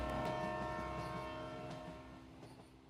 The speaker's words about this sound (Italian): Salite in carrozza, parte Espresso Indiano.